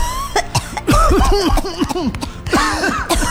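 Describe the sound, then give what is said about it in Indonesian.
Coughing from inhaling smoke of land burned for clearing: a harsh, throaty fit of repeated coughs in several quick bursts, loud and with no talking. “Batuk kan jadinya kita kan.”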